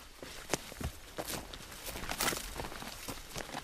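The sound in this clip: Footsteps of a hiker crossing thick brush, willow stands and a field of basketball-sized rocks, heard as a quiet, continuous run of irregular crunches and rustling scuffs with a few sharper knocks.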